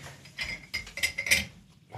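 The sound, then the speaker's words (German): Light glassy clinks and small knocks as glasses are refilled with Prosecco, a few bright chinks spread across the moment, with no voices. “fülle den nochmal mit ein bisschen Prosecco auf und bin gespannt, was jetzt kommt.”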